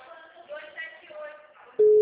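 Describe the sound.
A steady telephone tone after a number is dialed cuts in abruptly and loudly at the end, following a stretch of faint muffled voice-like sound.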